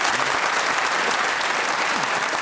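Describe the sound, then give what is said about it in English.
A studio audience claps after a correct challenge in a panel game, a dense, steady wash of applause that holds fairly loud for the whole clip. “That's very charming of you, audience. We needn't clap every correct challenge. that had a whiff of Wimbledon about it, that clap.”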